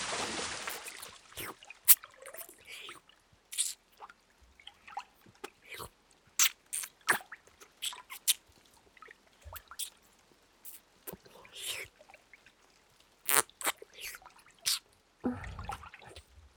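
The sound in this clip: Wet mouth sounds of someone nibbling and tasting an ear: many short, irregular smacks, clicks and soft crunchy nibbles, mostly faint, with a few louder pops scattered through.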